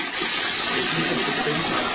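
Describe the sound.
Water rushes steadily as a toilet flushes through a water-saving flush device that releases between 1 and 6 liters, a constant loud gushing hiss.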